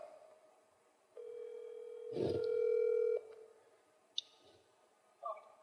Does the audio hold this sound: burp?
no

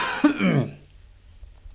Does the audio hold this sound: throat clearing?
yes

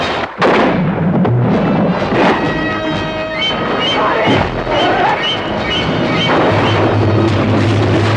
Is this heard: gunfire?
yes

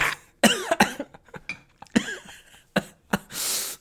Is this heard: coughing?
yes

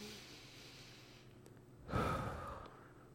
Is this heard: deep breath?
yes

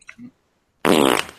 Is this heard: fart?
yes

